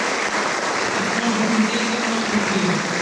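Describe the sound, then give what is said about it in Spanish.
A church audience applauds during a Eucharist service, with steady, moderate clapping and a faint voice underneath. “Así que vamos a dar un fuerte aplauso a ti, Jesús”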